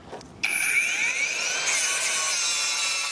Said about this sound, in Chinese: 打不下来的呢，就用这个切割机切。